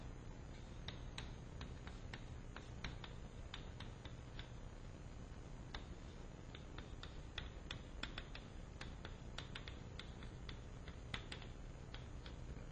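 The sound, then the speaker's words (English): Notes being written down make faint, light taps and clicks, many of them in an irregular patter over a steady low hum. “Maybe it's worth writing this down.”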